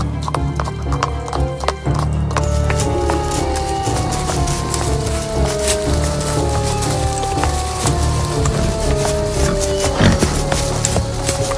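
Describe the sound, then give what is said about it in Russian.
Horses being ridden, their hooves clip-clopping in a steady, continuous rhythm throughout, with a horse's whinny among the hoofbeats. “И таким образом они отправились на своих лошадях без солдат”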